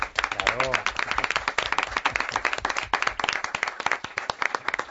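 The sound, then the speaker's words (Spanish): Several people clapping in a small group, many sharp, uneven claps that come and go while people keep talking and laughing over them. “Fantástico, se merece un aplauso.”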